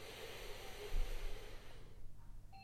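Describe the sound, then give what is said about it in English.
A deep inhale during a guided breathing meditation: a soft, steady rush of breath lasting about two seconds, then fading to near silence. “So take your attention to your body. Take a lovely deep breath in.”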